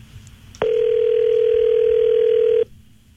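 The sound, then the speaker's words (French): A telephone ringing tone on an outgoing call: one steady tone lasting about two seconds that starts and stops abruptly over faint background noise. “attention, ça sonne, là. Allô? Allô, Étienne?”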